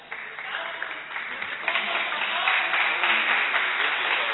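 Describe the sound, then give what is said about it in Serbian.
Applause at the end of a class in a religious lesson: many hands clapping steadily, starting moderate and growing louder and denser toward the end. “Aplauz je dobio za kraj”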